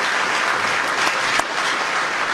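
Crowd applause at an event introducing a new Fed chair: a steady, even wash of many hands clapping, with one sharp crack near the middle.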